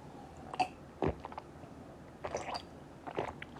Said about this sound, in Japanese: お茶を飲みます。